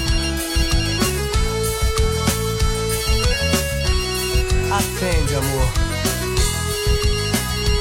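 Telephone ringtone melody woven through a forró song, repeating bright electronic tones over steady accompaniment for the whole stretch.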